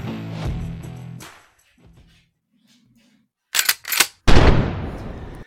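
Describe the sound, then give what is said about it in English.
A shotgun blast sound effect ends a commercial break. Music fades out, two quick sharp clacks follow, then a single loud blast with a long, decaying roar. “Got to thank and sponsor the little shotgun blast at the end of that commercial break, like, man.”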